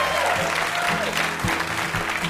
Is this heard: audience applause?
yes